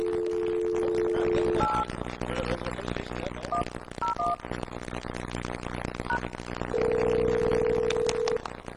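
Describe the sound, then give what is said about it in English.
A telephone is picked up and dialed, with a low steady dial tone followed by a few brief keypad beeps scattered over a dense, noisy background, then a longer steady tone near the end. “Will you please pick up and dial 8110?”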